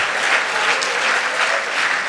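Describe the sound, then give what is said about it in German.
A church audience applauds their pastor with dense, steady clapping that stays at an even, fairly loud level throughout the short stretch, with no pauses. “Gebt mal dem Pastor einen Klatschopfer.”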